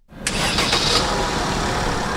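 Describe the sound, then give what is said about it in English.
A Red Cross emergency response vehicle's engine cranks and catches, rising quickly to a loud, steady mid-pitched running drone that holds for the rest of the short clip. “And the Red Cross Emergency Response Vehicle, or ERV, is off to Orlando, Florida.”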